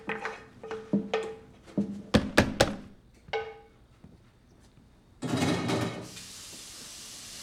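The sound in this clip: Kitchen cupboard under the counter opened to reach the garbage bin: a few soft knocks and sharp clunks, then a brief rushing scrape as leftover sauce is scraped from a pan into the bin, fairly quiet overall.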